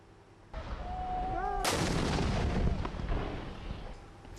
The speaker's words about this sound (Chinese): 在也门西南部塔伊兹省，也门政府军持续向胡塞武装阵地发射炮弹，并使用重机枪等武器向胡塞武装发起打击